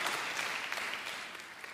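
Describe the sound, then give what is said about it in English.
An audience at a sermon claps its hands, a faint, steady wash of applause that holds evenly throughout. “All the Gentiles, clap your hands.”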